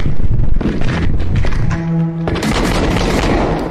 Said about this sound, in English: they also apply a motion blur here when you get when he gets shot at, which is an interesting choice. Shots fired.